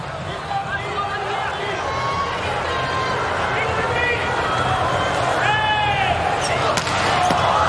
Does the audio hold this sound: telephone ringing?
no

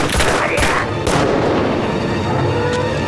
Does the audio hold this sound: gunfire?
yes

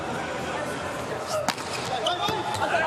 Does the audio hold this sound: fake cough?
no

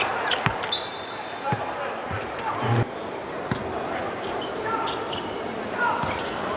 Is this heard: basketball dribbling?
yes

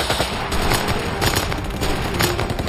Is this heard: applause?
no

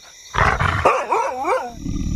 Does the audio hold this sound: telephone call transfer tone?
no

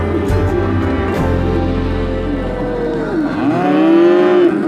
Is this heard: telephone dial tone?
no

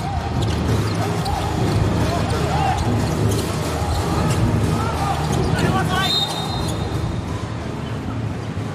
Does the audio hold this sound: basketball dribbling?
yes

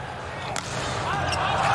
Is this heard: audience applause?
no

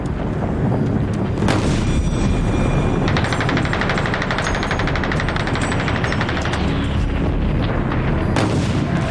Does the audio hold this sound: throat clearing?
no

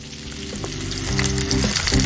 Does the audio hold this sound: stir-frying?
yes

